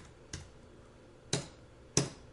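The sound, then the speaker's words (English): Keys pressed on a computer keyboard while entering code: three isolated, crisp clicks spaced unevenly apart, with nothing else around them. “Here I typed in the word prop tab tab, and when I did, it created a full code snippet to define a property.”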